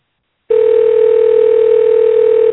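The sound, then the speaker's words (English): A call-screening telephone tone sounds as the call tries to connect: one steady, unbroken electronic beep at a single mid pitch, loud and alone, holding for about two seconds before cutting off. “Please state your name after the tone, and Google Voice will try to reach.”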